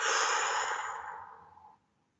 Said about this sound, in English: This is my in-breath. This is my out breath.